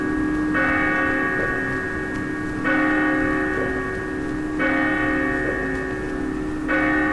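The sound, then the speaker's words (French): Church bells toll in a short introduction, with four slow, evenly spaced strokes. Each rich, ringing chime sustains and fades before the next one sounds. “je précise que cette petite introduction là avec des cloches”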